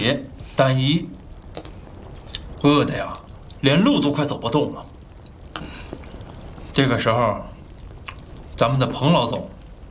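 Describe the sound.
Chewing and biting into a large griddle-baked flatbread, soft wet mouth sounds heard between bursts of speech from people at a shared meal.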